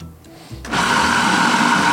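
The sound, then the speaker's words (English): A blender motor whirs up and keeps running, loud and steady, as it purées soaked ingredients and aromatics into a chunky vegan fritter batter. “you blend them into kind of a fritter batter.”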